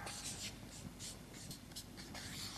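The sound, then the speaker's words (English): Chalk or marker scratching across a board as words are written: a steady run of short, faint, scratchy strokes with a few brighter squeaks. “Now, you'll have to watch me, because when I'm writing up here like this, I'm inclined to spell things wrong.”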